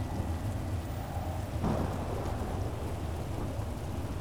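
Rain pours steadily through a thunderstorm, a continuous dense hiss over a low rumble, with a heavier roll of thunder swelling near the middle before easing back into the downpour.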